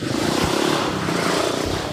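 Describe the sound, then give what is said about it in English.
A motorbike that seems to have something wrong with it roars past. The engine gives a loud, rough, continuous rumble with a sputtering low throb, staying strong for the whole stretch. “I think there's something wrong with that motorbike.”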